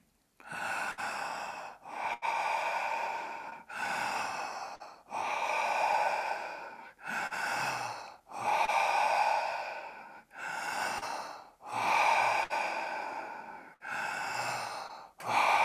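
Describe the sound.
Deep, forceful breaths from a breathing exercise, each one stretched to the top of the lungs and released, repeat many times in a steady, connected rhythm with only brief gaps, loud and airy with no talk.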